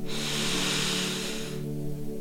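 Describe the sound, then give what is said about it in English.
A slow, controlled ujjayi exhale through a constricted throat during a breathing meditation, a steady breathy hiss lasting about a second and a half before stopping, over a soft sustained musical drone. “and exhaling out. Feeling the energy of the breath filling your body.”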